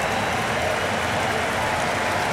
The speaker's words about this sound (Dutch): Onder luid applaus.